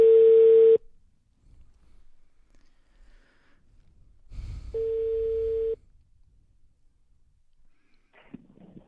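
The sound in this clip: Telephone ringback tone sounding while a call is being placed: two steady, mid-pitched tones, each about a second long, separated by a few seconds of quiet low noise.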